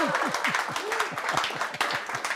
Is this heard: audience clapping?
yes